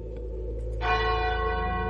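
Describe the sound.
A single bell, a magical bell, rings out with a resonant, sustained metallic tone that blooms suddenly and then holds, humming richly over a low drone.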